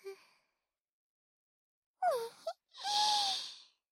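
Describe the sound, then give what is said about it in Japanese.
A high voice fakes crying, imitating sobbing with a short falling whimper and then a long, drawn-out wail, after a brief vocal sound at the start and a pause. “嘘泣きなのだ。”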